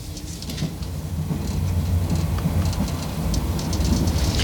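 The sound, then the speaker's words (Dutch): A passenger train pulls out of a station in Paris, bound for Yvetot near Le Havre. A deep, steady rumble of rolling wheels mixes with light rail clatter and grows gradually louder as it gets under way. No voices. “De trein verlaat Parijs op weg naar Yvetot bij Le Havre”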